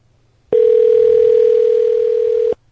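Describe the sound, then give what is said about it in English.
A telephone rings on an outgoing call: one loud, steady electronic tone lasting about two seconds, starting and stopping abruptly, with near silence before and after. “So loud, the ring.”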